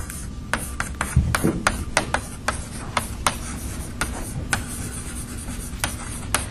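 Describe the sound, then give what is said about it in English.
Writing a definition on a board: many sharp taps and short scratching strokes in an irregular rhythm, fairly crisp and with no talk over them. “let me just write down the definition and explain the term.”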